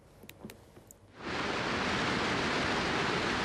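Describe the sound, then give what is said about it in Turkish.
Water roars through all the open floodgates of the Keban Dam in Elazığ, Turkey, released after snowmelt and heavy rain. Faint ticks in near quiet give way after about a second to a loud, steady, hissing rush that continues unbroken. “Keban Barajı'nda 7 yıl sonra ilk kez tüm kapaklar açıldı ve su salımı yapıldı.”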